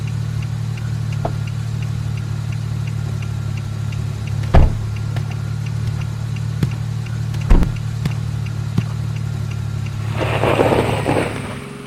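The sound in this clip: A car drives along a road and pulls over to the roadside, a steady low engine hum broken by a few sharp knocks, with a noisy swell near the end.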